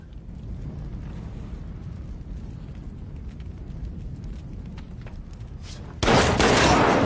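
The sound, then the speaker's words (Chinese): Gunfire in a film scene: a long, rough, rumbling stretch with faint sharp cracks, then a sudden loud, harsh blast of noise near the end. “老白胳膊中了一枪，好在杰哥枪里没子弹了，就换成了刀子”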